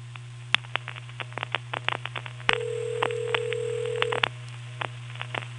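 Touch-tone telephone dialing of a long-distance number while defeating a toll restriction: many quick, uneven tone beeps, broken by one steady tone lasting nearly two seconds midway, all over a constant low hum.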